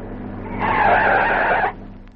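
Tires squeal as a car skids to a stop, one continuous high screech lasting about a second that ends abruptly over a low background hum.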